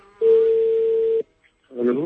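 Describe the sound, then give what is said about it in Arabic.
A telephone dial tone sounds as a radio host calls a listener: one steady, mid-pitched tone holds for about a second, cuts off into brief silence, then a voice begins speaking. “طيب لنتصل الآن بهذه المستمعة.”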